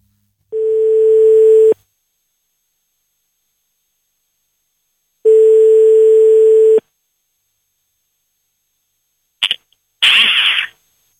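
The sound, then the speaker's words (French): Telephone line tone as a number is called: two long, steady, mid-pitched tones separated by several seconds of silence, followed by a short, crackly burst of noise on the line. “On a juste un numéro de téléphone, on le compose.”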